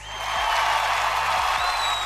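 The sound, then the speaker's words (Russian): Dense, even applause that swells in quickly and then holds as a steady wash of many clapping hands, with no voices. “Я тут на монтаже хочу поставить аплодисменты.”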